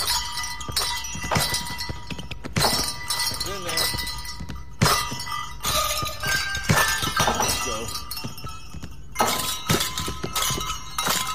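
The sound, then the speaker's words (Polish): Bright clangs and bell jingles ring out as NBA players shoot basketballs into hoops fitted with little bells, playing a Christmas tune. Many rhythmic metallic hits with ringing tones come in quick bursts, fairly faint overall. “A teraz gwiazdy NBA i osobliwy instrument. Kosze z dzwoneczkami, celne rzuty i jingle bells.”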